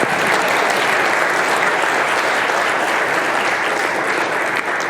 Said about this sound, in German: Oder erstmal Applaus nochmal, ne?